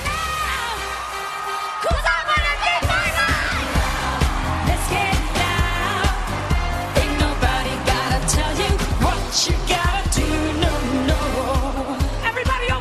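Loud live pop music at a Super Bowl halftime show: a quieter opening gives way after about two seconds to a thumping beat and layered music, with whoops and crowd noise running throughout.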